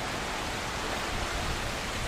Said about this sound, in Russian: Можно сколько хочешь смотреть, как бьются волны.